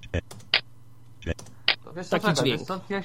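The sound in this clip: Short clicking notification blips from the TeamTalk voice-chat program, triggered by typing, tick out a few times in quick succession before a voice begins talking.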